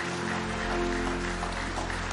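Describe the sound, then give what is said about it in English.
Church audience clapping in praise during a worship service: dense, steady applause that holds evenly throughout, with a low hum beneath. “Somebody say praise the Lord. Give him one more hand clap of praise tonight.”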